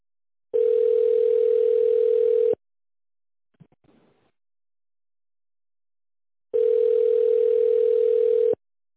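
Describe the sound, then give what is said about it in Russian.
Two long, steady telephone tones of about two seconds each sound while a call is transferred to an operator. A silent gap between them holds only a faint, brief noise. “Ваш звонок переводится оператору. Пожалуйста, оставайтесь на линии.”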